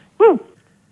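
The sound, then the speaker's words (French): A dog gives a single short, high bark or yip over a telephone line. It rises and then falls in pitch and sounds alone against a quiet line. “Oh. Oula. Oh. Je crois qu'ils ont un chien,”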